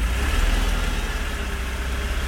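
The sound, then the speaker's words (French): A large car's engine idles with a steady low rumble that holds evenly for about two seconds. The car carries small flags and waits for a passenger. No one speaks. “Oh vache, ça c'est de la bagnole. Regarde.”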